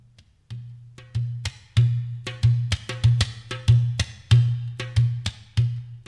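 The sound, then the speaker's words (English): Deep, booming strikes on a dohola, a bass tabla drum, ring out in a steady, repeating rhythm, with many heavy low thuds interleaved with crisp, higher slaps, played alone and fairly loud. “Then I use the dohola, which is the bass tabla. This is what it sounds like.”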